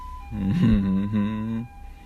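A siren-like wailing tone from a passing vehicle rises briefly, then holds a steady, buzzy pitch for just over a second before cutting off.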